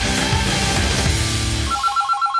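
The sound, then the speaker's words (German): A telephone rings for an incoming call: a bright, warbling electronic tone pulses in a quick repeating pattern near the end, right after a loud burst of music. “Anruf auf Knopfdruck. Und am Telefon ist der Weltmeister von 1990, Olaf Thon.”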